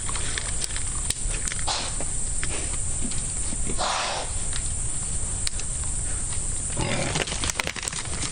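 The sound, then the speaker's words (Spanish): A wild boar moves through branches in dense undergrowth. Continuous rustling and crackling of twigs and leaves mixes with low, pig-like grunts, fairly loud and unbroken throughout. “Bueno, esto es el sonido de un jabalí entre ramas.”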